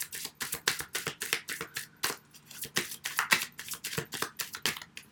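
A deck of cards being shuffled for a one-card reading, with many quick, papery riffles and slaps in a steady, busy rhythm at moderate loudness and no talk.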